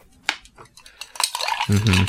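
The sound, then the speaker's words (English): A cocktail with Fernet is stirred in a small metal container, producing a few light metallic clinks and scrapes that grow busier and louder toward the end. “What are you stirring it in? A little metal in here.”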